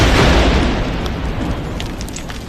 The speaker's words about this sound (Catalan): Este és el so d'una de les detonacions controlades.